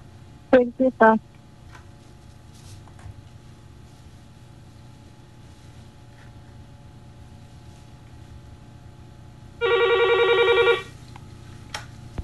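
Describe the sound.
A telephone rings for a phone-in call to a radio show: a few short tones near the start, then one loud, sustained trilling ring burst much later over a low background hum.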